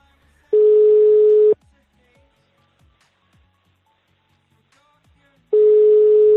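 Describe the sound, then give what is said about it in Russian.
Ringback tone of an unanswered telephone call: two steady, one-second pulses of a single mid-pitched tone, separated by about four seconds of near silence with faint ticks. “Егорка, бери трубку, бля. Сука, не берут, прикиньте.”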